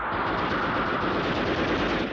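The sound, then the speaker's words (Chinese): Machine-gun fire in a wartime battle: a dense, continuous, rapid rattle of shots. It is loud and heard alone, without pause, for the whole stretch. “刘洪端起机枪要冲。 打！”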